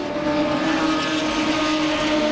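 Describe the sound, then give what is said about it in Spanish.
Race car engines drone along a main straight in a steady, continuous roar with layered engine tones that hold their level throughout, with no voices. “van pasando por la recta principal. Hay dos autos de Loctanos que todavía no salen.”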